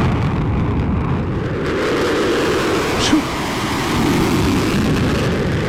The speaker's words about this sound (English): it looks to be like a fighter jet that's got his afterburners on.